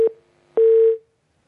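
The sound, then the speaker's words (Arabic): A telephone line tone sounds after a caller's call is cut off: one brief beep, then a longer steady mid-pitched tone that ends in silence. “لا اتصال قطع”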